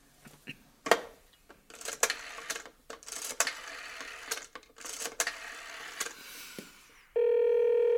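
A telephone number is dialed: a series of irregular clicks and short bursts, then a steady, sustained line tone for the last second.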